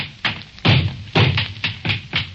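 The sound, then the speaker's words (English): A shotgun is pounded and hammered against a floor, making several dull, hollow thuds and knocks at an uneven rhythm, moderately loud with no voices. “I'm going to take the same gun and pound it on the floor. And now I'm going to hammer it and knock it.”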